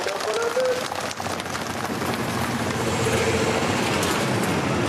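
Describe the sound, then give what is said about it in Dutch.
Heavy trucks roll past one after another on an unpaved dirt road beside maize fields, making a continuous broad rumble and rushing noise that stays at a steady loudness throughout. “Over de weg die er al ligt, komt de ene na de andere vrachtwagen voorbij.”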